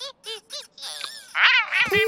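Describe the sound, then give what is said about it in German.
A voice imitates a frog singing off-key in a children's story: a quick run of croaky, warbling syllables, then longer sliding, wobbly notes. “Du magst nicht, wie der Frosch singt? Ja, er singt doch wirklich ein bisschen schief.”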